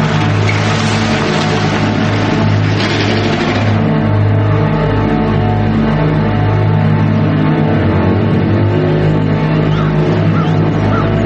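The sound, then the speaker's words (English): A pickup truck's engine rumbles as it pulls up, a loud, steady droning hum. A hissy upper layer drops away after a few seconds while the low engine tone carries on. “A pickup truck pulls up in front of a sign that reads, Yahat's Motel, 1/2 mile.”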